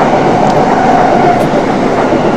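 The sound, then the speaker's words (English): A train passing by, a loud, steady rumble of wheels and carriages with faint rattling, continuous throughout without voices. “Ignore the train.”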